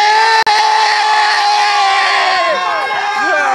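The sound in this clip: Spain football fans cheer at a match, a loud, sustained roar of many voices with high whoops and shouts running throughout.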